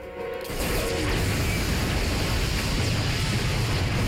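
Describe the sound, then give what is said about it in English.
A huge explosion rips through cars in a parking lot after petrol leaking from a 4x4 ignites. After a brief quieter start, a sudden loud, dense roar of rumble and crashing noise holds steady to the end. “A huge explosion rips through the cars in the lot, sending them flying in a heap of twisted, crashing metal.”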